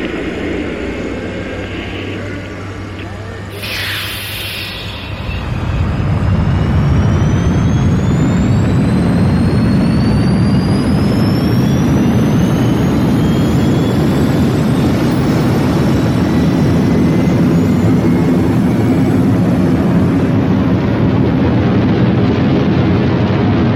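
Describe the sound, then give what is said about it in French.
Rocket engines roaring at the Apollo 11 liftoff: after a few quieter seconds, a deep, broad rumble swells and then holds loud and steady, with faint thin tones rising slowly above it. “0, all engine running. Liftoff, we have a liftoff. 32 minutes past the hour. Liftoff on Apollo 11.”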